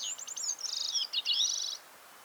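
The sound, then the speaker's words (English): Flight calls of birds passing over a rooftop, captured by a microphone inside a waterproof bucket: a quick series of high, thin chirps and buzzy trills, fairly faint, over a soft background hiss. “possible for anyone to record the flight calls of birds passing over their rooftop. It's called a bucket microphone because it's exactly that. A microphone put inside a waterproof bucket.”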